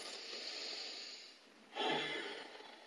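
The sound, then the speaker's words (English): A deep breath is drawn in through the nose during a breathing exercise, soft and airy. One long, faint inhalation is followed by a second, slightly stronger breath. “In through the nose. One more. And what do we call this? Breathing.”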